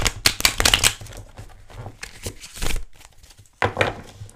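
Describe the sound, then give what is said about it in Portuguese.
Tarot cards being shuffled and turned over: quick papery riffles and flicks in several bursts, with a pause before a final burst, fairly quiet with no talking. “E acho que já virei as cartas todas.”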